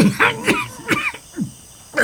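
Coughing from someone who swallowed too large a sip of a drink: a few harsh, hacking coughs mixed with throat clearing, loud, in uneven bursts with short pauses between.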